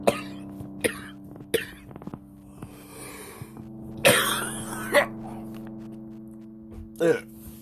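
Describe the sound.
A person coughs several times: a few sharp, raspy bursts, some heavier and throat-clearing in character, scattered among talking and a low, steady hum.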